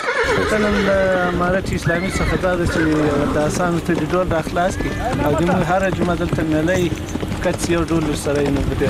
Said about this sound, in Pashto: په دې کرباخ کې تقریبا اته 15 آسان لرو.